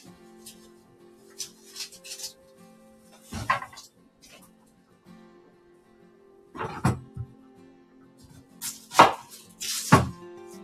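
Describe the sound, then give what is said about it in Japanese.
Knife chopping a peeled onion during a home cooking session: a few sharp, percussive knocks spaced seconds apart, the strongest clustered near the end, over a faint steady low hum. “玉ねぎを皮むいて切っていきます。”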